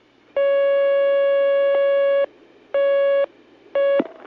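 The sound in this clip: Telephone line tone as a caller joins a call-in line: one long steady tone of about two seconds, then two shorter bursts, ending in a brief click.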